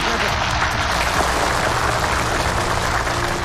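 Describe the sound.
Audience applause at a ceremony, dense and steady throughout, a broad wash of clapping at moderate level without a break, with faint voices mixed into it.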